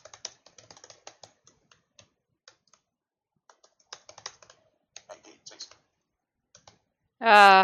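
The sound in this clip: Many light, irregular keystrokes clatter on a computer keyboard in quick bursts and pauses, then a voice speaks briefly at the end.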